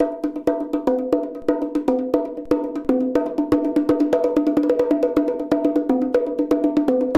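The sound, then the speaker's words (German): Bongo drums played by hand in a quick, steady rhythm, with many sharp, bright strikes alternating between a higher and a lower drum, loud and alone. “Hier ist zum Beispiel jetzt das Bongo. Das klingt so.”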